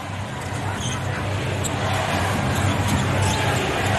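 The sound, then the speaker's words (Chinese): A basketball dribbled by a player during a New York Knicks NBA game: repeated bounces under a steady arena crowd din. “哈特在运球。”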